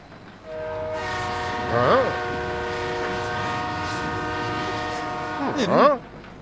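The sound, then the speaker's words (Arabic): A passing train in a small town with no station sounds a long, loud multi-tone horn chord that holds for about five seconds. The pitch bends and wavers briefly near its start and again near its end. “كان هذا قطار الساعة الواحدة والدقيقة السادسة عشرة الذي يصل عادة في السابعة والدقيقة الثالثة عشرة”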